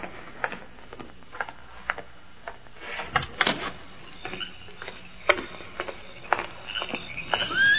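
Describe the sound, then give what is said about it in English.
A gate being opened, heard as a run of sharp clicks, rattles and scraping creaks of its fittings, growing busier and louder toward the end, with no talk over it. “I'll go open the gate.”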